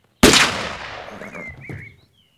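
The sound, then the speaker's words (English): A single loud blast from a pump-action shotgun fired while hunting deer. The sharp report decays over about two seconds, with a brief whistling tone in the fading tail. “Now watch me shoot the shit out of Bambi.”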